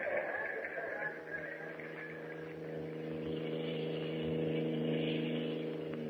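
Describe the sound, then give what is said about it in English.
A car driving along a road produces a faint, steady engine hum, an even droning tone that swells slightly toward the end. “The last sign I saw said 20 miles to the naval base, and we've been driving almost an hour since we passed it.”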